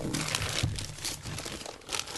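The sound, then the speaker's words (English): Wrapping paper crinkles and crumples as a heavily wrapped board-game gift is torn open. Dense, continuous rustling runs throughout, with a voice faintly underneath. “It's so much paper. You would never know. It's nothing but paper. I was in a hurry to wrap it around and around and around.”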